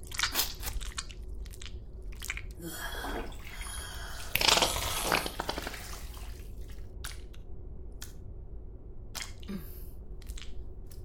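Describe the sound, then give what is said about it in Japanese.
Wet spitting and saliva mouth sounds: moist, squishy bursts with dripping, sticky textures. The two strongest surges are near the middle, over a steady low background, with no talking. “私の糸唾液が溜まっていたら、人間の女じゃ絶対に吐けないよ。吐きかけてあげる。行くよ。”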